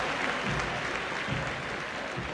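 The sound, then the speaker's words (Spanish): Stadium crowd applause at a football match as players greet the fans from midfield: a loud, dense, steady roll of clapping that holds throughout without letting up. “agradeciendo el aplauso que cada vez fue incrementándose”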